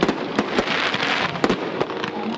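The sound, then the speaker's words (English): Fireworks burst at an annual Independence Day event in Coachella, California. A loud, continuous barrage of many cracking bangs rises over a dense, rumbling roar. “Those were fireworks that were held last night at an annual Independence Day event in Coachella, California.”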